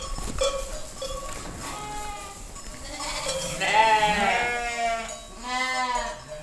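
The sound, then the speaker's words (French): Sheep and newborn lambs bleat in a barn while being fed hay: a few wavering, tremulous cries that swell loudest in the middle and again near the end, over a low background. “Parce qu'on a les derniers petits agneaux, là, qui sont nés la semaine dernière.”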